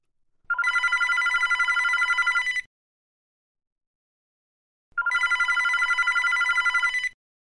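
A telephone rings in two long electronic trilling bursts of about two seconds each, with silence between them and no voices.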